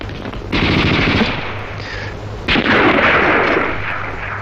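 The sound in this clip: Loud gunfire rattles out in two long, sustained bursts of rapid automatic fire, each running about two seconds and dense with overlapping shots.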